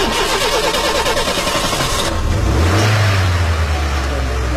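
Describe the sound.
A human voice imitates a car engine starting and revving during a driving lesson after the key goes into the ignition. A rattling, cranking-like burst gives way to a loud, low, steady droning hum.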